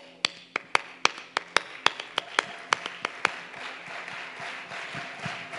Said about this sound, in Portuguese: Vocês podem ficar de pé, se quiser, né? Obviamente, não é uma ordem. É, vocês podiam bater palma assim?